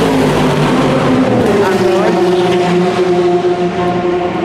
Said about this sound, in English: traditional end to an episode from Le Mans is using the sound of the cars start and finish